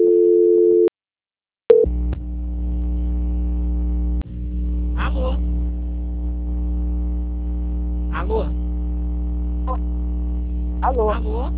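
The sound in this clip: A telephone ringing tone on a call: a steady mid-pitched tone that cuts off after about a second. A low continuous electrical hum follows, broken by a few brief warbling chirps.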